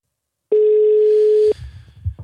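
A telephone dial tone as a call is placed: one loud, steady mid-pitched tone lasting about a second that cuts off abruptly, followed by faint low rumbling.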